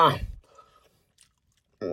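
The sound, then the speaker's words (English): Faint, soft chewing of a bite of a two-year-expired Milky Way candy bar, quiet sticky mouth sounds and a small click, set between brief vocal sounds at the start and end. “I took a second bite. I just took a second bite.”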